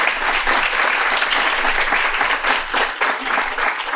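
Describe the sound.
An audience applauds a guest after an interview. The clapping is loud and dense, a steady patter of many hands with slight swells, heard alone throughout.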